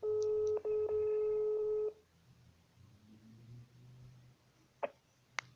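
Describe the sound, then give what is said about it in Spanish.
A telephone tone heard while calling someone: two steady electronic tones separated by a brief gap, then near-silence broken by a couple of faint clicks. “ahora en este momento lo estoy llamando, a ver si contesta.”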